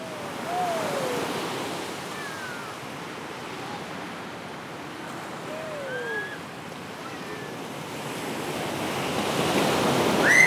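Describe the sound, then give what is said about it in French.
Sea waves washing onto the shore make a soft, continuous hiss and rumble that swells slightly near the end, with faint high chirps scattered through it. “J'ai peur, ça me fait peur la mer. Ça me fait peur la mer.”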